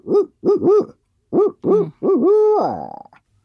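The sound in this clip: A human voice imitates a barred owl's hooting call: a rhythmic series of low hoots, three then two, followed by a long, wavering hoot that trails off at the end.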